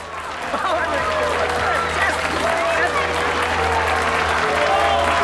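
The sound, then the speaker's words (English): Applause breaks out in a crowded wine bar packed with customers. Steady clapping runs the whole way through, mingled with the busy chatter of many voices. “In the middle of the wine bar, David stands and acknowledges the applause.”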